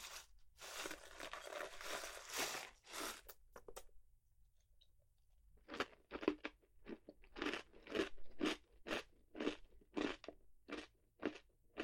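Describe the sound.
Crunching of kaki no tane rice crackers and peanuts: a dense stretch of crisp crackling first, a short quiet gap, then many rhythmic, sharp crunches as the snack is chewed, fairly soft and with no talk.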